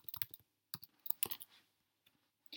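Typing on a computer keyboard during a screen-shared online French lesson activity: short bursts of crisp key clicks separated by pauses, with a final brief cluster at the end.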